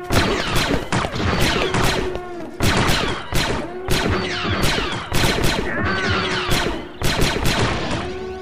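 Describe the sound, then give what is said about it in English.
Sustained blaster covering fire in a sci-fi firefight: dense, rapid volleys of sharp, crackling shots that run almost without pause, loud throughout. “It'll get me closer and divert some of the blaster fire. I need some cover. Get ready, you two. Covering fire in 3, 2, go!”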